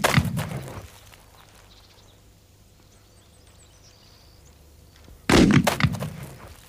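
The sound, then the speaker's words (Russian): Two loud gunshots from a double-barrelled hunting gun fired at a hat lying on the ground, each blast sharp and booming, separated by a long stretch of near quiet. “два раза стреляет в неподвижно лежащую шляпу”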